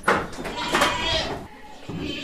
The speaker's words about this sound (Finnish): Tää vuohi juoksee itse tonne ylös.